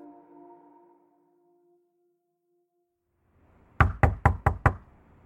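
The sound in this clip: Police knock on a door with five firm, rapid, evenly spaced raps, following a faint fading tone and a moment of silence.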